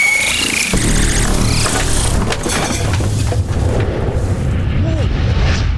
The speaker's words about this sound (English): The telly! I was new, that was. We had a special grant for that. That was the final warning shot.